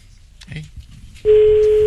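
A telephone call being dialled: after a stretch of faint, low rustling, a loud, steady, single-pitched line tone starts abruptly and holds unbroken to the end.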